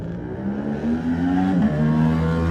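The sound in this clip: A racing motorcycle sets off from the start of the Manx Grand Prix Junior on the Isle of Man, its loud engine note climbing in pitch, dipping briefly at a gear change, then rising again.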